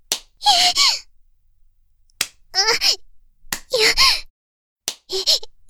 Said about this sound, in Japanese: 痛い。なんでお尻叩くの？